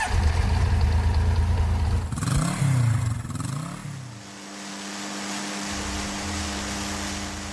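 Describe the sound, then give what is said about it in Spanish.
A motorcycle engine revs as riders hurry off to school, a dense mechanical drone that swells in pitch midway before settling into a steadier, lower hum, with no talking over it. “Después de que aceleraron a la moto, llegaron con un poco de retraso”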